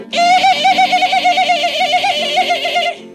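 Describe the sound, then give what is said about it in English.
A voice imitates a chimpanzee call, giving one sustained, wavering high "ee" cry that trills steadily for about three seconds before cutting off. “The chimpanzee says,”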